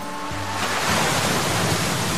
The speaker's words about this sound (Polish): Na żywo. Prosto z Darłówka. Fale Bałtyku.